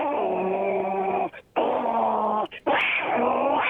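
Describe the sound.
A person's voice imitates cats fighting with three long, drawn-out, moaning yowls at a steady pitch, loud and separated by brief pauses.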